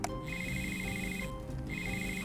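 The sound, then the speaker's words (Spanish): A telephone rings with an incoming call from a health secretary to a mayor: two bursts of steady, high electronic ringing separated by a short gap, moderately loud, with no voices. “El alcalde recibe una llamada de su secretario de salud.”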